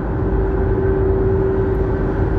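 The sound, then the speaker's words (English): Steady engine drone of a concrete truck running alongside, a loud, continuous low rumble with a constant humming tone and no voices. “now I got a concrete truck beside me”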